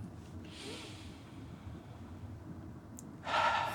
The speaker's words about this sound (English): can you take a deep breath just right now? Just take a deep breath.